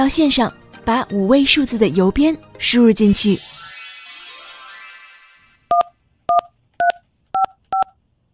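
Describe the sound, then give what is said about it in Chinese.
Five short telephone keypad tones enter a five-digit zip code on an automated phone line. They come in an even rhythm after a voice speaks and a sound fades out. “We're still on the line, so let's enter our five-digit zip code.”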